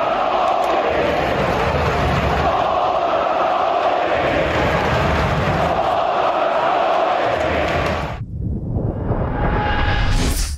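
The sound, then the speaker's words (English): Winnipeg Jets hockey fans chant in a loud, dense crowd roar during a game in Winnipeg. The sound holds steady for about eight seconds, then drops away abruptly. “the chant was silver medal, which was delicious from the Winnipeg Jets fans, and pull the goalie were the chants on Sunday in Winnipeg.”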